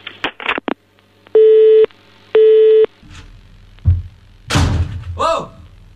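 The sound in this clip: In a radio studio, a few clunky knocks of a handset being hung up are followed by two loud, even pulses of a telephone busy tone, then people start talking.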